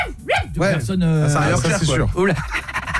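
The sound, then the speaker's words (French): A man imitates a barking dog with his voice, producing a few loud, strongly pitched yelping and howling barks in quick succession, with fainter trailing sounds at the end. “Il a fait le chien. Ah oui, le son que vous entendez là, c'est lui. Il a fait le chien.”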